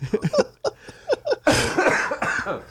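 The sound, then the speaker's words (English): Coughing from someone whose cough is returning: a run of short, harsh bursts, then a longer and noisier fit of coughing. “that cough's coming back.”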